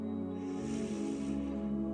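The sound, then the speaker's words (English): Someone takes a deep breath in during a guided meditation: a soft, breathy rush swells and fades over about a second, faint above a steady tonal background hum. “And together, take a deep breath in.”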